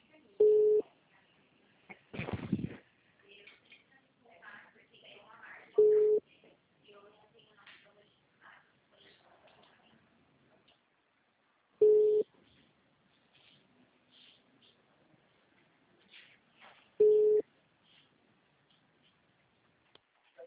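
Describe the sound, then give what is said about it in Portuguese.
Telephone call sound effect: a short ringing tone repeats four times, spaced roughly five to six seconds apart, with faint scattered clicks and small sounds between the rings. “Eita, outra ligação.”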